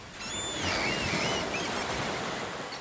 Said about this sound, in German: So klingt es auf Jüst.